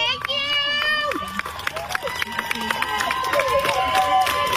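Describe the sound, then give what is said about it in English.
A crowd outside a courthouse cheers and shouts as a defense attorney walks by. Many voices, whoops and whistles keep up a continuous, loud din throughout. “And they showed up to cheer her on outside the courthouse today. And this is the moment her defense attorney walked on by.”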